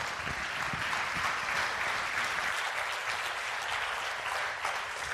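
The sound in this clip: Audience applause welcomes a speaker, a dense, even wash of clapping that holds steadily throughout and thins only slightly near the end.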